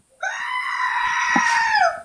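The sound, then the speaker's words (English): A screaming goat sound effect: one loud, sustained, strained bleating scream with bright harmonics, holding for nearly two seconds before cutting off, heard on its own. “The goat may come out quite a few times if you haven't heard about our screaming goat.”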